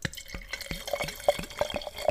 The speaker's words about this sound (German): ich trinke einen ganz normalen Wein. ja, ich wollte was Cooles, und jetzt fehlt mir aber wieder der Mann, weil ich kriege die Flasche nicht auf.